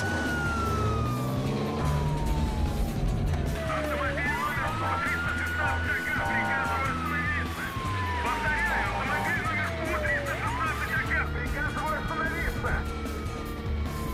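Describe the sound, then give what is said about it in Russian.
A police siren wails during a high-speed chase with a traffic police car in pursuit. Its loud, slow tone repeatedly falls and then climbs again over steady road and engine noise. “Он мчит на скорости. За ним едет ДПС. Стой, стой!”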